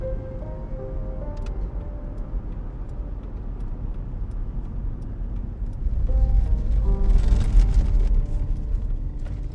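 Steady low rumble of a car driving on the road, heard from inside the vehicle, swelling louder partway through and then holding.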